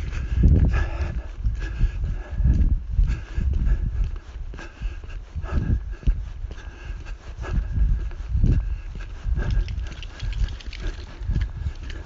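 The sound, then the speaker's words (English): A dog shakes its head, making repeated muffled flapping and rustling bursts of uneven loudness over a steady low rumble, with no talk. “That's a dog shaking his head.”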